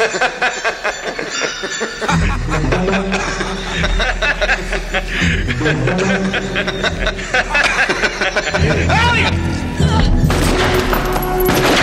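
Gunfire in an action film scene cuts through a loud, dense soundtrack, with a sharp burst near the start and another later over a constant busy backing.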